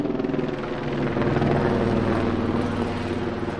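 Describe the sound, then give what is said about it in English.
Tourist helicopters flying past over a Los Angeles canyon below the Hollywood sign, a continuous throbbing rotor drone that swells slightly toward the middle before easing off. “a group of homeowners in Beechwood Canyon have had it with that sound. They live below the Hollywood sign, which they say draws tourist helicopters that fly past almost constantly.”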